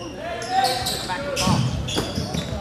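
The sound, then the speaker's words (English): A basketball is dribbled on a court during a game: a few thudding bounces sound under voices and other game noise. “He spins, fires it outside, top of the key, dribbling.”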